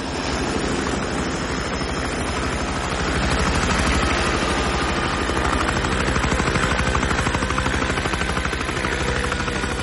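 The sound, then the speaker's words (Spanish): Aircraft landing on a vacant lot near a hotel in the film Heat: a loud, dense engine roar with a rapid, regular chopping pulse that holds steady for the whole stretch. “La aeronave aterriza en un solar próximo al hotel.”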